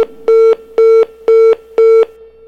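Electronic telephone tones during a call: four evenly spaced beeps, each about a quarter second long, pulse over a constant lower hum in a steady, regular rhythm.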